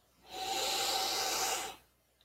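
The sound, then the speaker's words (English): One big, deep breath: a long, steady, airy rush of air that lasts over a second and then fades to quiet. “Big, deep breath.”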